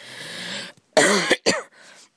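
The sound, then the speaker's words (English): Harsh, chesty coughing from a person with a cold, sore throat and stuffy nose. A long rasping burst comes first, then a few sharp coughs separated by short gaps. “And that's my disgusting cough.”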